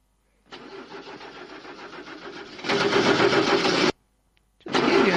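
A car's starter motor cranks the engine, its Bendix drive worn: a steady whirring grind that grows louder partway through, cuts off abruptly, then a second cranking burst begins without the engine catching.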